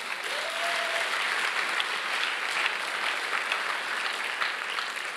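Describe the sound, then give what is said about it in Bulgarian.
A church audience applauds during a sermon, a steady, dense patter of many hands clapping that holds at an even, fairly soft level throughout with no voices over it. “Можем ли да ръкопляскаме на Господа за това?”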